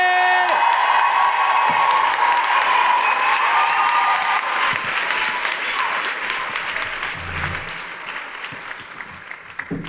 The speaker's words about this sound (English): Put your hands together and make incredible woo-hooing noises for the wonderful Grace Petrie!